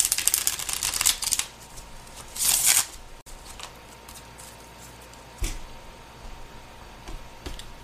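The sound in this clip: Tarot cards shuffled for a reading, a dense crisp riffling that runs for over a second, then a second shorter burst of shuffling, followed by a couple of soft isolated taps.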